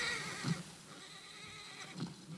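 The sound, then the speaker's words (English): A horse whinnying in a film scene: a strained, noisy call with two brief accents, near the start and near the end, over a dense, continuous background of sound. “Oh, horse is not a fan.”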